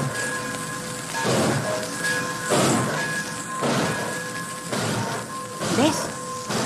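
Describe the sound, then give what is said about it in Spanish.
Radio-drama effect of a train starting to pull away: a broad rumbling roar with a series of heavy rhythmic surges and thumps that repeat every second or so, fairly loud and steady throughout. “arrancando el tren. Ya nos vamos.”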